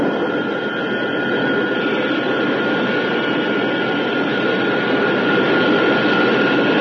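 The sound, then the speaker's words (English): Spaceship retrojets fire to decelerate as the craft comes tail-first toward a landing platform, making a steady, unbroken roar that holds at even loudness for about seven seconds with no voices. “When the tail is pointing towards the landing platform, the retrojets will open. The jets are about to fire. Prepare for deacceleration.”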